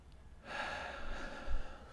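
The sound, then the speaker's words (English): A single deep breath, drawn in slowly as a long, airy, breathy rush that swells and then fades, quiet and alone. “Nice deep breath.”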